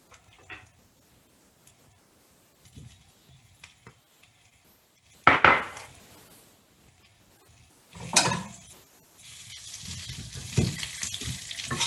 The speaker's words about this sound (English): And now we are putting the potatoes.